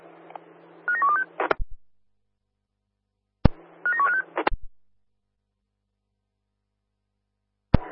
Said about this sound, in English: standby for a phone call, please.